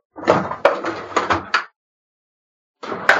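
A drawer crammed with clutter is opened and rummaged through. There are a few quick knocks and rattles, then silence, and another short clatter at the end.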